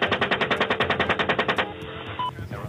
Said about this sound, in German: veröffentlichte unter anderem dieses Video, das zeigt, wie US-Soldaten im Irak aus der Luft auf Zivilisten schießen.